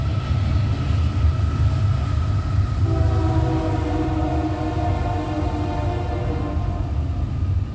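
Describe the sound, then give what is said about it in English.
A train passing on railroad tracks in the early morning hours, a loud continuous rumbling roar throughout, joined partway in by a sustained horn that holds steady over the noise to the end. “Right, that is a train that is not the Amtrak that is on those railroad tracks, which is an Amtrak train”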